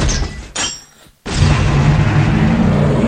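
Airstrike explosion used as a sound effect: a loud, broad roaring blast that briefly drops to near silence, then a second heavy rumbling burst that holds strong to the end.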